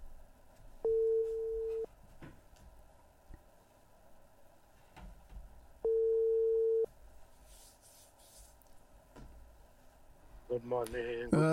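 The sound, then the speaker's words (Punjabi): A ringback tone sounds as a telephone call is placed to a guest: two steady tones, each about a second long, over a low background hum, then a voice comes on the line at the end. “ਆ ਲਓ ਜੀ, ਮੈਂ ਉਹਨਾਂ ਨੂੰ ਕਾਲ ਕਰ ਦਿੱਤੀ ਹੈ, ਆ ਲਓ।”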